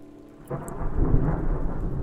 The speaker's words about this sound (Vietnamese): Ngay sau câu nói đó, một tia sét đánh xuống kèm theo tiếng nổ kinh thiên động địa.